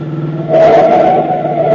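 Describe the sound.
A car engine revs as the car swerves right around a street corner. It starts with a lower hum, then swells into a loud, sustained roar that holds steady to the end.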